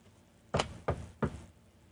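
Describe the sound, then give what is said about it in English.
Three quick, hollow knocks on wood, evenly spaced and fairly faint, with quiet before and after. “And that was me knocking wood, because even though I'm not superstitious, I am.”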